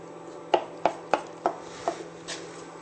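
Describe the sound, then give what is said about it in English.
Stirring coconut milk and spelt in a pot produces six sharp, fairly quiet knocks of a utensil against the pot in an uneven rhythm. A faint steady hum sits beneath. “Now give this a really good stir so that these get integrated and they'll start to cook in.”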